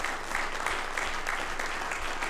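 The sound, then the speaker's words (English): A church audience claps their hands in a steady, even rhythm, each beat crisp and regular, continuing without a pause. “Somebody clap your hands unto the Lord if you believe that tonight.”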